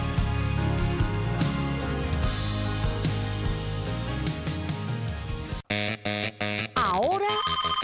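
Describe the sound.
A phone ringtone signals an incoming call: a few short, bright electronic bursts, then a sliding, wavering tone, following a stretch of busy background music.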